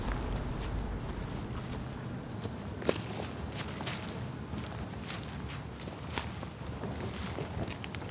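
Footsteps walking toward the Chatri, the Indian war memorial, mixed with outdoor wind noise. The steps are faint and steady and keep an even pace throughout.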